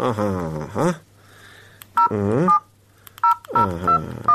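Telephone keypad dialing while placing a call: several short, clear beep tones at an uneven pace over a steady low hum.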